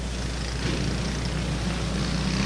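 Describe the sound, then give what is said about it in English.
Go-karts in the 8-to-11 class race on an indoor dirt track at the McLean County Expo Center during the final lap, their engines forming a steady, continuous roar with a low droning hum and no breaks or voices. “Go-karts. Dirt track and go-karts. Here in the McLean County Expo Center.”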